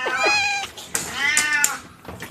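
A diabetic tomcat meows: two loud, drawn-out, wavering meows, followed by a fainter, shorter cry near the end.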